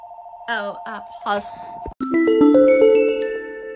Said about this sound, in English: Sorry for that. The phone just rang.